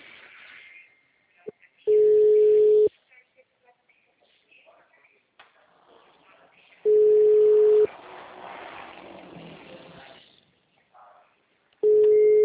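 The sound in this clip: Ringback tone of an outgoing phone call waiting for an answer: a steady mid-pitched beep about one second long that repeats after roughly four-second gaps, three tones in all, the last cut off at the end, with faint background noise between.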